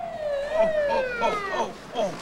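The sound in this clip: Police car sirens wail in a wavering tone that sweeps up and down repeatedly and stays loud and continuous over the whole stretch.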